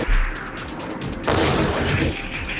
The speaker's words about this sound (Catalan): Com sentiu, l'artilleria dispara amb el suport de l'aviació israeliana